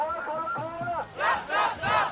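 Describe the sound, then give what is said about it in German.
A protest crowd on a march to Lützerath chants slogans in unison: first a drawn-out sung phrase, then three loud, rhythmic shouted bursts from many voices. “Die Sprechchöre können sie alle auswendig.”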